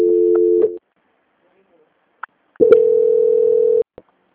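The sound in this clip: A steady, mid-pitched telephone line tone sounds during a call transfer on a bank call, in two bursts: a short one, then after a pause and a click a longer one, ending with another click.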